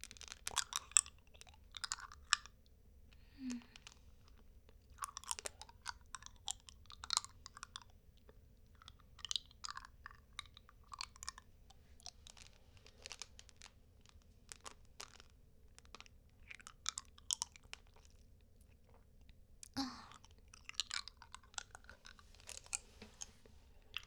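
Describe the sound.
A person chews food with a fresh, refreshing taste, making many soft, crisp crunches and wet mastication sounds in an irregular but steady rhythm, fairly quiet and without talking.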